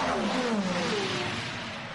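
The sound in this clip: Racing car engine on a track, the number 17 car during a race, gives a steady revving note that drops slightly in pitch and gradually fades.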